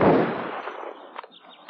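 A gunfire volley fired on command in a dubbed film: one loud, booming burst that rolls off slowly, followed by a couple of faint pops.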